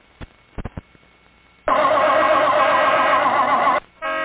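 Car engine sputtering and stalling in an old Pure Oil gasoline advert about carburetor icing: a few faint clicks come first, then a loud, narrow-band engine roar runs about two seconds, drops away briefly and picks up again.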